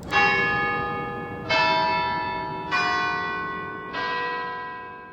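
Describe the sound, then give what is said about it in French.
Church bells ring in the morning with four slow, evenly spaced strokes. Each strike blooms with rich metallic overtones and fades out before the next one sounds, with no other sounds around them. “Chaque matin, je me réveille au son des oiseaux ou aux des cloches d'église.”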